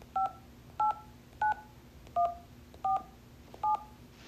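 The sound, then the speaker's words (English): Six telephone keypad dialing tones sound in an even rhythm, each a short clear dual-pitched beep separated by brief gaps, over a faint background hum. “The first sound is me dialing the Caltrans local assistance.”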